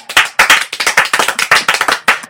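Audience clapping prompted by a raised applause sign: many sharp, quick claps in a slightly uneven rhythm, loud and crisp, with no talking over them.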